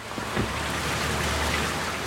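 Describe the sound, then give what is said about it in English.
Steady rain falling on a new outdoor restaurant patio in Mount Pleasant, heard as a constant, even hiss throughout, with no talk. “In Mount Pleasant, a new outdoor patio welcomes customers to the Mustard Seed. Only this day, it's raining.”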